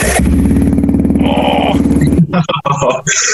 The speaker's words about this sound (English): Let's see the way bikes actually sound. Let's see. Wait, ready?